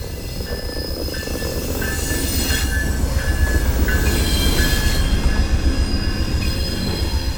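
A passenger train passes through a small-town station with platforms on both sides of a historic building. A steady, loud rolling rumble runs throughout, with repeated high wheel squeals cutting in and out. No voices.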